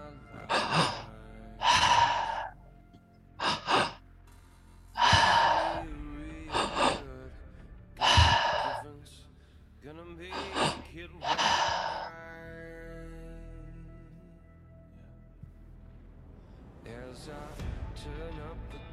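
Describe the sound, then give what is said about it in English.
Deep, forceful breathing during a breathwork session: many loud, sharp gasping inhales and sighing exhales in an uneven rhythm, separated by quieter pauses, with the breaths thinning out toward the end. “It's time to get real. It's time to go deep. This is the moment. Breathe.”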